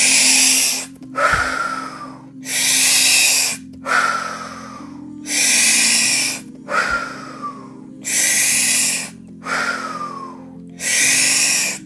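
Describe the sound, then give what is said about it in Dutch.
Slow breathing through the nose in a guided breathing exercise, several steady in-and-out cycles in an even rhythm, each breath a soft airy rush over a quiet low drone. “En dan gaan we adem in.”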